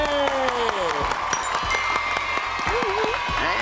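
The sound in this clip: Applause for a team receiving a certificate at a children's safe-media event: steady, dense clapping from an audience, with a host's voice talking over it throughout.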